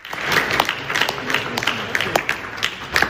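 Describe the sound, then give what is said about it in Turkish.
Applause breaks out after the signing of an agreement at a ceremony attended by the US and French presidents, a steady crackle of many hands clapping for about three seconds. “İmza atılınca alkışladılar.”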